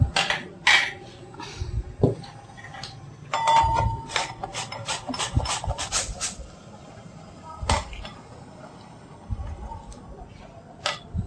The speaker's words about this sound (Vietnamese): Đây là phần đu đủ sống. Chúng ta sẽ thái cọng nhuyễn hoặc là có thể dùng bằng bào cọng.